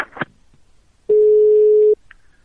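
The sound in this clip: Telephone tone heard after a call is hung up: a brief rustle or click, then a single steady mid-pitched beep lasting under a second, followed by a faint short blip.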